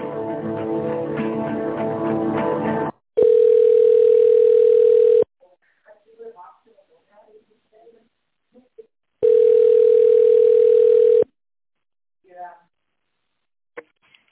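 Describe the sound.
Telephone tone while a call is transferred to a manager: two long, steady mid-pitched tones of about two seconds each, separated by a pause holding faint scattered sounds, after a short opening stretch of other sound.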